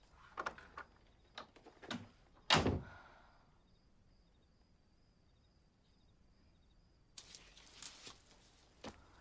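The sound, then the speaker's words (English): A door closes with a single solid thunk as a woman stands against it. A few soft, faint movements come before it, and a quiet, low background lingers afterward. “He goes into his room and she goes into hers, standing against the door as she closes it.”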